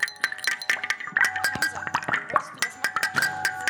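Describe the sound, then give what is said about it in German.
Crisp crunching as teeth bite into an apple and chew it, a dense run of many sharp, crackling snaps and wet crunches repeating steadily throughout. “Jetzt kommt das Essen, wenn ihr in einen Apfel reinbeißt.”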